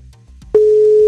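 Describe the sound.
Telephone line tone while a call is placed, a single steady pure tone that cuts in abruptly after half a second of faint low sounds and holds unbroken to the end.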